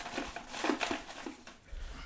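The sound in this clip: A folded paper lot being drawn from a bag and unfolded, giving a continuous crinkling and rustling of paper with a few sharper crackles.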